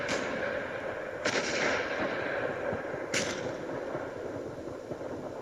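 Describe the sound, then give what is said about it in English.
First World War guns fire around 11 a.m. on 11 November 1918, at the armistice. Two sharp booms, each with a lingering rumbling tail, rise out of a continuous background noise. No one speaks. “11 a.m. is when the armistice declared the war would be over. The guns are still firing.”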